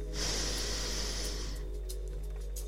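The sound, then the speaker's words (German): A single slow, deliberate inhale during a mindful breathing exercise: a soft, airy hiss that swells quickly, holds for over a second, then fades, with no talking. “Ich atme bewusst. Ich atme ein”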